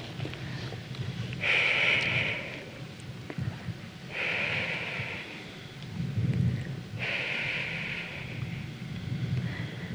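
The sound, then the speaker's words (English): Three breaths are blown onto a crystal held in the hand. Each is a soft, airy hiss lasting about a second, evenly spaced and faint, over a low rumbling background. “And we're going to do three breaths onto our crystal.”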